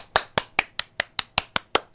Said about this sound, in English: but that's the sound of the live studio audience. Rockin' and Reelin' with Lyra LeBrun is filmed in front of a live studio audience. They were just applauding at my reading of that advert.